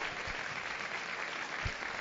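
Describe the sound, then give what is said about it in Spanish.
A football crowd applauds steadily as players are substituted during a match. The clapping is a continuous, even wash at moderate volume, with no voices. “Se merecen los aplausos.”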